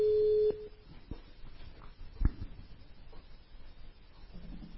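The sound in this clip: A telephone call signal gives one short, steady, mid-pitched tone at the start, then fades into faint background noise during a live call-in.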